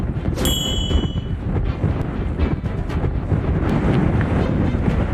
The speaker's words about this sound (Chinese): 500号戒备常年狂风呼啸，冬季阵风可达8级以上。